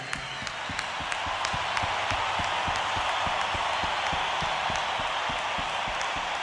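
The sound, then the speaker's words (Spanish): Audience applause at a live band concert as the crowd claps for the fans, a dense, loud wash of clapping with steady, evenly spaced claps standing out throughout. “Vamos a darles un aplauso nosotros a ustedes.”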